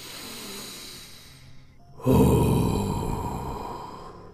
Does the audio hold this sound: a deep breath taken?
yes